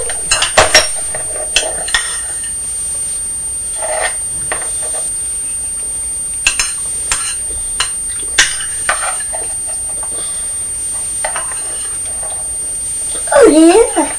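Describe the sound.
A metal spoon clatters and clinks against a bowl of cornflakes in a series of light, irregular taps over a steady background hiss, with a brief voice near the end.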